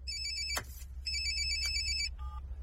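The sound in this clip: A telephone rings with two bursts of bright electronic trilling, then a brief lower tone, over a steady low hum.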